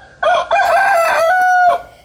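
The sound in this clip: A rooster crows once, loud and clear, in a single call of about a second and a half that starts with a short note and then holds a long, steady tone before cutting off.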